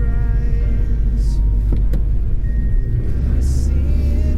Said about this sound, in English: I'll be posting this video sometime after this is out, but here it is, my drive with all the snow.